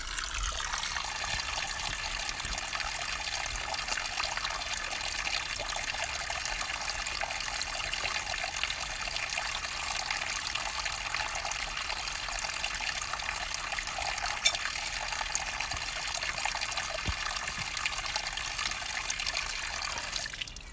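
Water pouring steadily from a bottle, a continuous even rushing and splashing flow that holds without pauses for the whole stretch.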